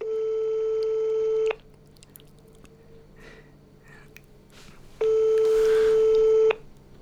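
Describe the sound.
An outgoing telephone call rings out with two long, steady electronic ring tones separated by a few seconds of near silence.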